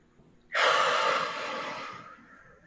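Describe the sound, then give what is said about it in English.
A single deep breath during a breathing exercise, one loud rushing intake that starts sharply and tapers off over about a second and a half, heard alone with no talk. “we're going to take a few deep breaths in through your nose and out through your mouth.”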